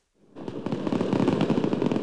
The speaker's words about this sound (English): Look at the fireworks. It's midnight. Listen.